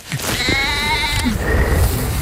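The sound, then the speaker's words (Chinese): An injured lamb with a broken leg from a fall, found while grazing, gives a long, wavering, nasal bleat. Quieter rustling and shuffling follow it. “放牧途中，才人发现了这只摔伤骨折的小羊，就赶紧把它抱回家”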